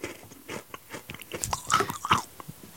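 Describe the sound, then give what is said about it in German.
Crunching of rock sugar candy being chewed, with many sharp, irregular crunches and bites of varying loudness in quick succession and no talk over them. “Was mampfst du da eigentlich nebenbei? Zucker. Hört man das?”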